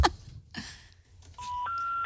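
Telephone keypad dialing tones: two steady electronic beeps in a row, the second pitched slightly higher, each held for a fraction of a second after a few brief scattered noises.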